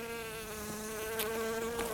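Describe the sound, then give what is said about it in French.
Buzzing insect such as a bumblebee, bee or cockchafer: a continuous, even drone with a rich, slightly wavering hum, fairly faint and steady throughout, with no voices. “Bah oui, je vous vois, bourdon, abeille, hanneton.”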